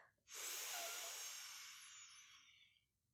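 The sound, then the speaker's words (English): A slow breath in for the 4-7-8 breathing technique used to help fall asleep: one long, soft, airy inhale that swells quickly and then tapers gradually over a few seconds, heard alone. “breathe out, Breathe in.”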